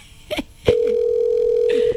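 A steady telephone tone sounds on a call that nobody answers. A couple of brief faint noises come first, then the tone starts abruptly and holds at one even pitch to the end.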